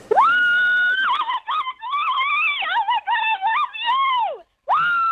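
A fan of Louis Tomlinson screams loudly and excitedly while trying to win concert tickets. The high-pitched scream wavers and bends in pitch, breaks off briefly near the end, and then starts again.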